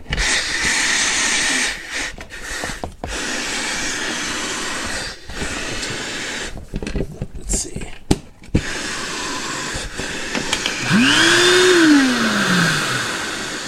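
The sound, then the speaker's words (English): An electric pump deflating an air bed gives a steady, loud whirring rush with several brief dropouts, and near the end a whine rises and then falls in pitch. “You connect it and turn it until it really starts, and then turn it back the other direction to the left. And as you can hear, the bed is deflating.”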